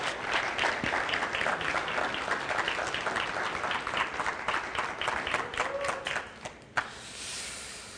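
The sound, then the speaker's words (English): An audience applauds to welcome guests, with dense, steady clapping that holds for several seconds and then thins and fades near the end. “So would you put your hands together, and let's welcome Savo and Christina.”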